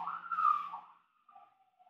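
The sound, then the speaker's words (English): A siren outside in Washington Heights, New York, after a heavy snowstorm: a faint wailing tone that swells and wavers, then drops to a softer, thinner trail. “Oh, we got a siren. This is Washington Heights.”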